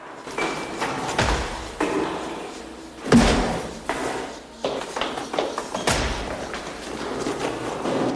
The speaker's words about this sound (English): She opens a stairway door and runs down.